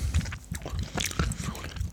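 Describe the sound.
Chewing of a berry being eaten, a quick run of soft, irregular wet crunches and clicks that continue through the whole brief moment without any voice.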